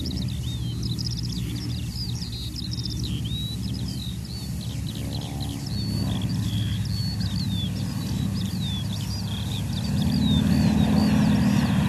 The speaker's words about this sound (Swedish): Kommer de in för landning?